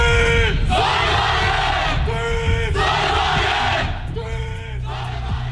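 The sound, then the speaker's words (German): A team battle cry from the Sonnenwagen Aachen student solar car team of RWTH and FH Aachen at the European Solar Challenge in Zolder, Belgium: a group shouting in unison in a few loud, rhythmic bursts with short gaps between them. “So hört sich der Schlachtruf des Teams Sonnenwagen Aachen an, einem studentischen Team von RWTH und FH Aachen, das am Wochenende bei der European Solar Challenge im belgischen Zolder angetreten ist.”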